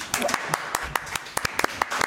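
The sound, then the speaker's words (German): Scattered clapping from a few people at a wine tasting for a wine princess, with sharp, separate claps landing at an uneven pace and voices talking alongside. “Nochmal einen Applaus für Niki.”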